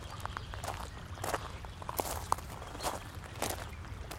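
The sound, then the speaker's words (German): Faint footsteps of people walking toward the site of an abduction, many soft irregular steps with occasional small clicks over a quiet background. “Wir gehen jetzt Richtung Entführungsstelle.”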